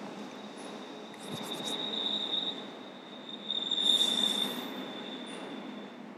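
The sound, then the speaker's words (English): A train passing by, its wheels squealing in a steady high-pitched whine over a continuous rolling rumble, the squeal swelling louder twice; no talk. “Just hang in there a second. The train's going by. I might have to get out there and push it myself soon.”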